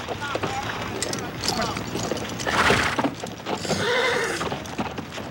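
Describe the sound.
Police horses whinny and clip-clop as they ride off through a park, the hoofbeats and neighing running steadily under people talking.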